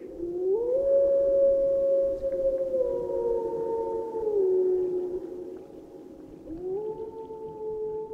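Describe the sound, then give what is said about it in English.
A wolf howls in long, smooth, mournful tones, each rising at the start, holding, then sliding lower in steps, followed by another rising howl near the end, with no other sounds around it. “Even if we don't know yet what it means, the call of the wolf is an iconic and unforgettable sound that can send chills up the spine.”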